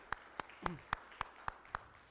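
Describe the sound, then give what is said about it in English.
A church audience claps for the worship team: seven crisp, evenly spaced claps on a steady beat. “Let's give a huge clap to our worship team. Come on. That was awesome.”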